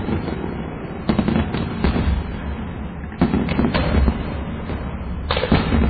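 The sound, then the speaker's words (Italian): Fireworks from a battery of 30 rockets firing one after another: many sharp, irregular bangs and whooshes cut through a loud, continuous crackling roar. “Qui il tizio sta accendendo la carica della batteria di 30 missili e scappa a. L'ha acceso con la sigaretta, ecco, ora sì. Sparati uno dopo l'altro.”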